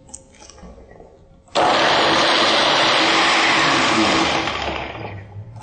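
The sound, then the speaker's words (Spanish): A blender liquefying food switches on abruptly after a quiet opening and runs as a loud, dense, steady whir, easing off slightly toward the end. “Se recomienda dejarlo licuar por 2 o 3 minutos.”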